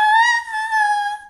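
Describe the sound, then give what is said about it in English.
A high-pitched sung vocal tone, the wrong way to breathe during labour, held for just over a second. Pitch stays fairly steady with a slight waver, and the loudness dips briefly midway before fading at the end. “rather than a high-pitched sound like this”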